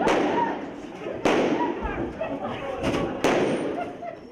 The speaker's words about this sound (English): these teachers and faculty are sitting in a classroom or milling about in a hallway, and they kind of get lulled into a sense of security, and then suddenly they start shooting.